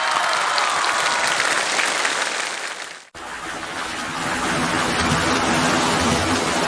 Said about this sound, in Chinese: 此处有掌声。